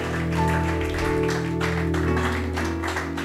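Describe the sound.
A church audience claps to welcome their pastor as he walks in, a continuous rolling clatter of applause over sustained musical tones.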